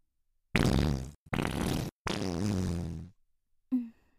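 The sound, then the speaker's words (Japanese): A fart: three long, loud, buzzing blasts with short gaps between them, then one brief, lower sputter after a pause. No talking is heard. “ごめんね、急におならしたくなっちゃって。”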